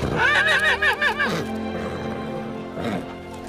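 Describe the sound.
A horse neighs at a corral: a loud, wavering whinny with trembling pitch, followed after a pause by a shorter, fainter call.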